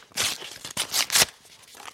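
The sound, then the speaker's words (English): A paper envelope is torn open at an award announcement. Several quick ripping bursts come in the first second and a quarter, then fade to a quieter rustle. “Can I have the envelope, please?”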